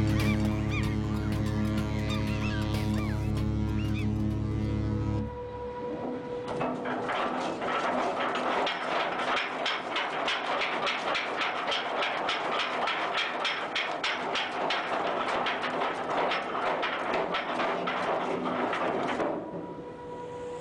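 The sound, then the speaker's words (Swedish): The anchor chain of a 274-metre container ship rattles out as the anchor is dropped in the English Channel. It opens with a steady, low buzzing drone, then becomes a loud, continuous metallic clatter that lasts about fourteen seconds before easing off. “En ankarkätting ser du. Från det 274 meter långa containerfartyget Sealand Eagle.”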